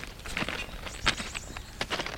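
Footsteps walking up a slight rise on an old railway embankment, a few soft, irregular steps with light crunching, faint and without voices.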